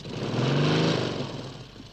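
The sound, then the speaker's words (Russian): A motorcycle engine driving away, a steady, quiet, buzzing rumble that swells briefly and then fades over about two seconds. “уезжает на мотоцикле”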